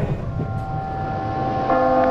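A subway train stands at Harvard Square station, with a steady low rumble and sustained tonal whines, and a brighter tone joining near the end; no one speaks.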